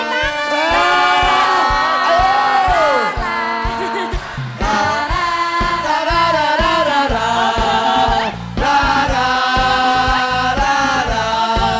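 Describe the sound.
An audience at a dangdut singing competition cheers and shouts through a standing ovation. The loud, excited voices rise and fall in pitch, with brief dips in volume before the cheering surges again.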